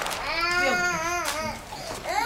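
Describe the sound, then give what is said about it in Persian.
A baby cries alone on a staircase, a high, harmonic wail that wavers in pitch, runs almost continuously and breaks briefly before resuming. “نوزاد روی پله‌ها تنها مانده و گریه می‌کند.”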